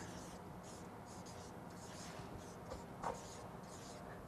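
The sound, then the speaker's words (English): Writing on a board while Greek words are spelled out: faint, steady scratchy strokes continue throughout, with a slightly louder tap or scrape near the end. “I'm actually glad that I have this up here because I don't have to pronounce words now. I can just write them.”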